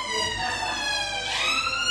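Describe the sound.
Emergency vehicle siren passing along a Manchester street: a loud, continuous wailing tone with strong harmonics that sweeps in pitch throughout, steady in level.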